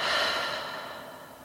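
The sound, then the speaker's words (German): Breathy rush of air during a guided nose-in, mouth-out breathing exercise, strongest at the start and gradually fading over about a second and a half, with no talk. “Und noch einmal durch deine Nase einatmen. Und durch den Mund wieder aus.”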